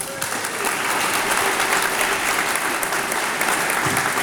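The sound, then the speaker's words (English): A round of applause from an audience, a dense, even patter of many hands clapping that holds steady for about four seconds. “you're always going to get a round of applause for that, by the way. It's a bit delayed, wasn't it?”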